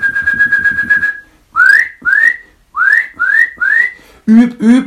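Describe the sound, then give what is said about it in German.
Loud whistling calls of a Eurasian nuthatch. A rapid run of even whistled notes is followed by several separate, clear whistles that each sweep upward, then two lower, harsher notes close the sequence. “Ja, und die Kleiber packe ich da jetzt mit rein. Mit ihren lauten Pfeiftönen sind die so auffällig und über so weite, große Distanzen zu hören.”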